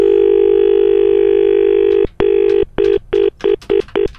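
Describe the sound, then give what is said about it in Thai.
Telephone being dialed for a live call: a steady dial tone holds for about two seconds, then breaks into a quick run of short, evenly pitched keypad beeps that grow briefer toward the end. “เรากดสดเลยนะครับ ครับเราจะกำลังโอ้ต่อสายเลยนะ”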